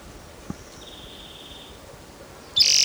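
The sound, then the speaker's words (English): A male bird calls with a thin, level whistled note held for about a second, followed near the end by a loud, sharp, high-pitched call over a quiet background, with one soft tap early on. “I think this is Riverside Atari number 8, the male that was calling in the previous bird's recording.”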